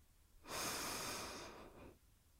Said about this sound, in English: let's take a deep breath.